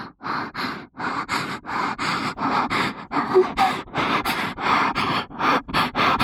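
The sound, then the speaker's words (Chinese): A voice imitates someone's breathing with many quick, rhythmic, breathy puffs like panting, evenly spaced and moderately loud throughout. “你听你的呼吸，我学你啊。”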